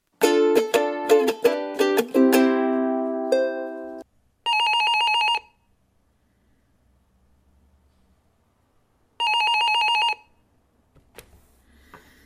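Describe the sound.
An incoming call on a telephone: a quick run of melodic chime notes opens, then two long buzzing electronic ring bursts follow, separated by several seconds of near silence.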